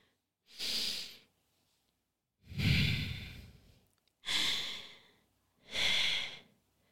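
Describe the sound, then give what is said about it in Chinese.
Four slow, deep breaths, each a loud, airy rush separated by short pauses, taken alone as a calming breath to settle an anxious child. “宝贝，先停下来，深呼吸。”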